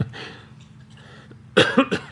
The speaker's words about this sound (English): Now we are encouraged to cough.